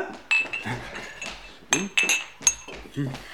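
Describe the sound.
Glasses and shot glasses clink as they are handled and set down: a few quick, bright chinks in clusters, with ringing glassy tones between quieter handling sounds.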